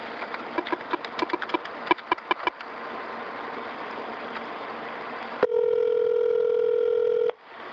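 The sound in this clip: Telephone call being placed: a quick series of sharp dialing clicks, a stretch of soft line hiss, then one steady ring tone lasting about two seconds before it cuts off.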